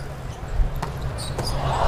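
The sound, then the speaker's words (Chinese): A volleyball struck on a serve during a match, heard as two sharp, brief smacks over a steady low murmur of background noise. “好发球。”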